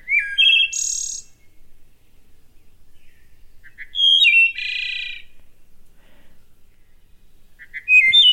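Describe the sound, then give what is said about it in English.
Wood thrush song, clear against silence: two full flutelike phrases and the start of a third, separated by long pauses, each opening with liquid whistled notes and ending in a high, buzzy trill. “This is the call of the wood thrush, which has declined more than 40%, I believe, since the 1960s.”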